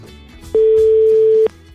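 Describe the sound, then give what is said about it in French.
A telephone ringing tone on the line while calling someone: a single steady mid-pitched tone lasting about a second, loud and alone. “Allez, ça sonne chez Olivier.”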